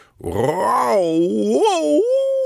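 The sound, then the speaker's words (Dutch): A voice imitates a wolf howling at the full moon: one long, wavering, tonal howl that climbs, dips and swells again before settling on a held note, loud and alone. “Dan steekt hij zijn kop in de lucht. Blij huilt hij naar de maan.”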